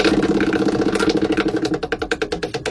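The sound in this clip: A spinning prize wheel, spun for a radio call-in game, gives rapid clicking ticks that gradually space out toward the end. The ticks sit over a steady tonal musical background.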